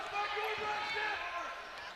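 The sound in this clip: A basketball is dribbled on a court during a game, with a few soft, regular bounces beneath a commentator's steady talk.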